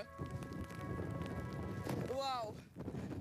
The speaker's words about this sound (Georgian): მიუხედავად იმისა, რომ წვიმს ქარია და ძალიან ცივა